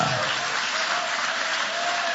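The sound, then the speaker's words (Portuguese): Church audience applauding during a service, a dense, steady wash of many hands clapping at an even level with no breaks. “Pode tomar o vosso assento, guarda a Bíblia com carinho e podem aplaudir também a Deus com muita alegria.”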